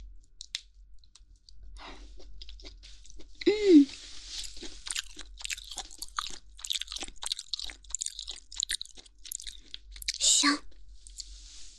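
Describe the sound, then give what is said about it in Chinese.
Chewing of lean chicken meat, the muscle part with no fat, heard as many small, moist crunches and clicks at an uneven pace, fairly faint, with a few louder bites. “果然是肌肉的部分最好吃，听说吃鸡肉还不会长胖哦，全是蛋白质。”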